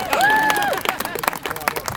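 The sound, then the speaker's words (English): Audience applause at a Denver parks event: a voice is briefly heard at the start, then many quick claps come in a dense, uneven patter mixed with crowd noise. “That deserves an applause.”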